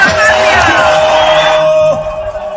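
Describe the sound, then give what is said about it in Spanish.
A crowd welcoming Colombia's president-elect in Barranquilla shouts loudly in unison, a dense roar of voices with cheering and whoops that drops away abruptly near the end. “todo el pueblo y toda la gente dice fuerte, ¡bienvenido presidente! ¡Bienvenido Abelardo de las Priellas!”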